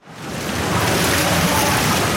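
Swimmers training in lanes at an indoor public pool in Aarau churn the water, producing a loud, steady rush of splashing and wash that swells in after a soft start and holds without a break.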